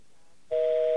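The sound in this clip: A telephone busy signal from an automatically dialed call: one steady dual-pitched tone, loud against a quiet line, begins halfway through and holds for about half a second.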